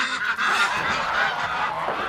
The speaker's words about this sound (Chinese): 这鹅一洗澡可白了，天天早上起来一开门自己就下河了。